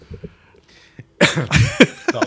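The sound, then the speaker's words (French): A person coughs in a harsh, loud cluster of several coughs in quick succession after a quiet, faint opening. “Là, ça me fait tousser.”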